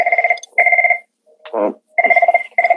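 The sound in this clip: A telephone rings in loud, trilling bursts, paired rings at the start, then a short pause and a further pair of rings, with a brief different sound in the gap between them.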